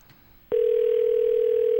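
Ringback tone of an outgoing telephone call: after a brief hushed moment, one steady, mid-pitched electronic tone starts abruptly and holds level until the end, with no voices.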